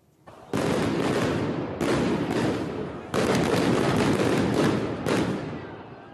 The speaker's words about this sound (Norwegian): Warszawa smalt det skikkelig av tåregassgranatene eh, fra polsk politi